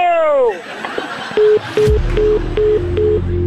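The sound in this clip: Telephone tones as a call is dialed: five short beeps at one steady pitch in an even rhythm, preceded by a brief swooping sound and joined by a low hum toward the end.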